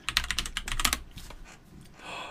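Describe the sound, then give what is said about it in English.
Rapid keystrokes clatter on a computer keyboard in a quick, busy run, then trail off into a few softer taps. “Okay? I'm going to type that in and see what comes up.”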